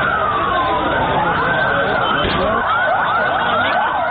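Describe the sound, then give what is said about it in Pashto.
Several ambulance sirens wail over one another after a powerful bomb blast at a crowded park's parking area in Lahore. Their overlapping tones sweep up and down continuously over dense, steady background noise. “دا د هغو امبولانسونو غږ دی چې په لاهور کې له قوي چاودنې وروسته د پیښې له ځایه مړي او ټپیان انتقالول.”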